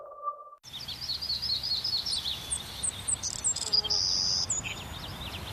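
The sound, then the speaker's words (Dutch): Birds whistling in a series of high, thin chirps and short trills, some repeated in quick succession, over a soft steady hiss of insects; a brief low tone sounds before the birdsong starts. “Blijf genieten van het gefluit van vogels.”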